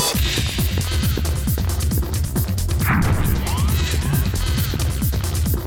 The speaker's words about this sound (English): Get my sword out.